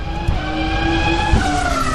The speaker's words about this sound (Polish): Tak brzmi każdy porządny wyścig.